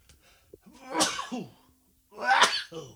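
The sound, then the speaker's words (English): A person gives two explosive sneezes that sound like harsh coughs. Each is a sharp burst with a throaty, rasping tail, separated by a brief silence. “Yes, that was a sneeze before you go, what was that, a cough? I don't know what it is. That's just how I've always sneezed”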